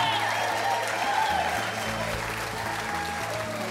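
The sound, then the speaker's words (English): Live radio show audience applauding, a dense and steady wash of clapping that holds at an even loudness for the full few seconds. “But most of all, we have our wonderful, beautiful radio audience that we have every month. Give yourselves a big hand.”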